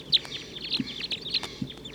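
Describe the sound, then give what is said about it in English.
A wild flock of birds calling from treetops: many short, high-pitched chirps and downward-sweeping call notes overlap in quick succession. The calls are faint, with a few soft low bumps among them. “the wild birds in the treetops are calling now. Wild flock. Taking off.”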